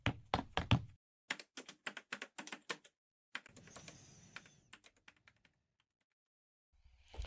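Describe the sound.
Fast keyboard typing comes in clattering bursts of many keystrokes as someone types the word Nutella backwards. A softer, rustling stretch follows, then quiet.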